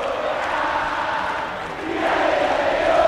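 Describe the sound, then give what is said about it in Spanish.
Instituto football supporters roar and chant at a packed stadium before the match, a sustained wall of crowd voices that dips briefly and then swells louder toward the end. “Escuchen al público de Instituto. Se levanta el aliento de la gloria que va a copar el Estadio Monumental.”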